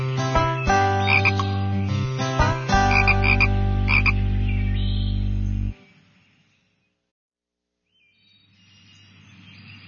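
A frog croaking: loud, tonal, buzzing croaks repeat steadily for about six seconds, then stop abruptly, with a faint croak returning near the end.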